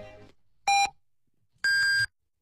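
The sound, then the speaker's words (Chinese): Radio time signal beeps marking the hour on a Chinese news radio station: a short, loud, high tone followed by a longer one of the same pitch, with faint sound before them and no talk. “现在是北京时间9点整， FM 93徐州广播电视台新闻综合广播。”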